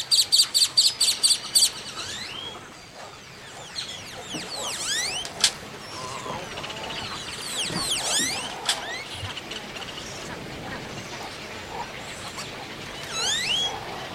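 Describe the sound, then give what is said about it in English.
Wading birds calling in a Gulf coast rookery of herons, reddish egrets and roseate spoonbills. A rapid run of repeated pulsed notes opens, then many overlapping chirps, squawks and sliding calls continue throughout. “great blue ones, reddish egrets, and roseate spoonbills. Living on Earth's Jeff Young joined Audubon scientists in this avian haven as they prepared for possible impact from the Gulf oil spill. He sent us these sounds.”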